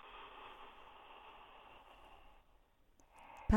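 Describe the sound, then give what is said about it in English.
A man exhales loudly through his nose in one long, breathy hiss that trails off after about two and a half seconds. A shorter breath follows, then a sudden sharp noise at the very end. “He does breathe clearly though, doesn't he? He's got good nostrils.”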